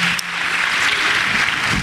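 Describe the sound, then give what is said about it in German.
Clapping from an audience welcoming a warm-up stand-up act, a dense, steady patter of many hands at moderate loudness, lasting just under two seconds without any talk. “Also erstmal einen großen Applaus bitte für Warm-up, Maria.”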